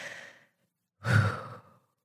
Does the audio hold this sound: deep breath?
yes

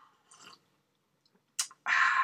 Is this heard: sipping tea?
yes

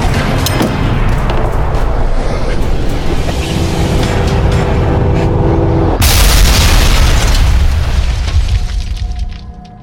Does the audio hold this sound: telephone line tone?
no

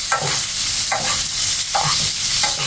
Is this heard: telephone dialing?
no

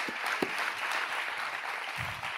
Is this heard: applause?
yes

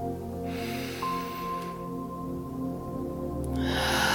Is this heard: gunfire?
no

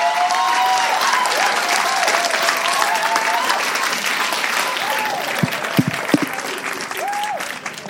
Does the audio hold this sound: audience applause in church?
yes

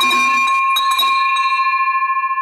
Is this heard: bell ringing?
yes

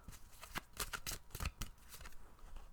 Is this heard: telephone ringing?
no

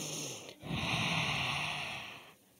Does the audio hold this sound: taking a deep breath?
yes

